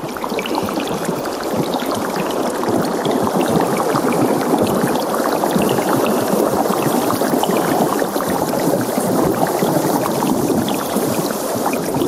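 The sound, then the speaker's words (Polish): Dense, continuous dripping and seeping water that resembles rain, heard in an immersive art installation. It forms a steady, even wash of countless small trickles with no pauses. “staraliśmy się odtworzyć w tej instalacji, czyli takie wrażenie, że otacza cię ten dźwięk, kapania, sączenia się, właśnie jakiegoś takiego deszczu trochę.”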